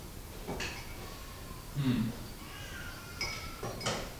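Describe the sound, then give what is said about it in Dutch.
A spoon stirs in a cooking pot, giving soft scraping and a brief cluster of metallic clinks near the middle. A few other faint knocks are heard, all quiet. “nu kan je gewoon roeren, ja.”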